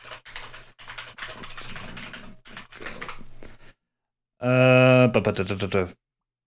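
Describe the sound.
Rapid typing on a computer keyboard, a clattering run of many keystrokes lasting a few seconds, followed after a short pause by a voice speaking briefly.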